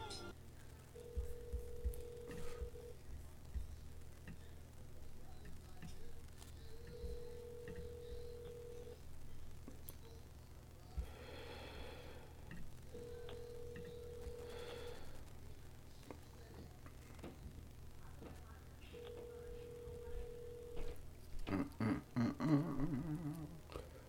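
Ringback tone of an outgoing phone call before it goes to voicemail: four steady, even-pitched rings, each about two seconds long and spaced roughly six seconds apart, faint over a low background hum.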